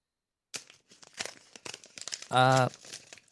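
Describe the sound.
A paper check being handled: crinkling and rustling in a series of short, dry crackles and scrapes of varying loudness, spread over a few seconds.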